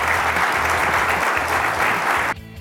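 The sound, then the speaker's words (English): An audience applauds panelists at a used-car industry conference in San Diego, with dense, steady clapping that cuts off abruptly just before the end. “So let's give our entire round of panelists here a big round of applause.”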